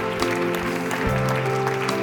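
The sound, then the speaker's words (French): An audience applauds at a gathering with a balcony, a continuous spread of clapping over steady, sustained musical tones that shift pitch partway through. “Est-ce qu'on peut les applaudir plus fort?”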